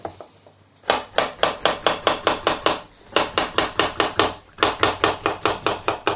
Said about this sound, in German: Ende und Anfang eben knapp abschneiden. So, und dann einfach in die Zwiebeln rein.